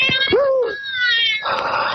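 A cat meows over a telephone line with a thin, tinny, narrow sound: a drawn-out yowling meow, then more harsh, wailing cries.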